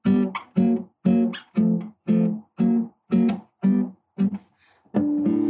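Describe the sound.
Guitar chords played in a steady rhythm of short, choppy strums, each quickly damped, ending on a final chord left ringing.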